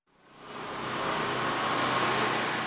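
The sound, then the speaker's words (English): Steady rumble of a running power generator in Puerto Rico. It fades in over the first half second, then holds a constant, dense droning roar with no other sounds. “Generators are the new soundtrack of Puerto Rico's holiday season. They power homes, hospitals, stores. And the sound,”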